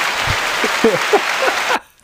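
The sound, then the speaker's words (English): Applause from a crowd giving a standing ovation: a dense, steady wash of clapping that cuts off abruptly near the end, with a voice speaking over it. “Thank you for that standing ovation, everybody. We appreciate it.”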